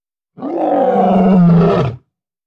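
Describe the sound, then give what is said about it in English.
A lion gives a single deep, rumbling roar of about one and a half seconds. It swells and then breaks off, standing alone against silence. “Roar. Lion.”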